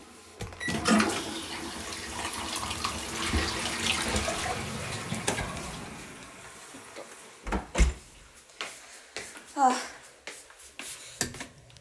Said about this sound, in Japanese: 流しますね。